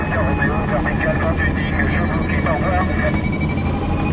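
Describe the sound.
Steady, loud engine roar of a light airplane with a 180-horsepower engine taking off from a runway, a dense continuous drone that holds even throughout.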